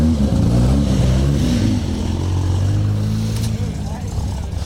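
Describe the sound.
A rally car passes by, its engine giving a low droning hum that dips in pitch as it goes past, while someone talks over it.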